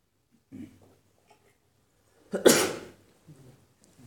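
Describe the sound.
A single loud, sharp sneeze bursts out midway, preceded by a few soft breathy noises and followed by faint rustling.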